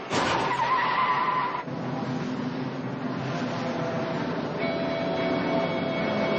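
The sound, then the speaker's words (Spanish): A Lincoln car pulls out of a garage with a loud, steady rush of engine and tire noise. A high whining tone runs through the first part, then the sound shifts abruptly and carries on at an even level. “Charnier sale del garaje conduciendo el Lincoln.”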